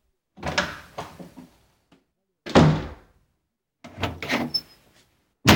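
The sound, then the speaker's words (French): Castle doors being opened give a few separate bursts of heavy thuds and scraping knocks, with short silent gaps between them. “Ouvre les portes du château.”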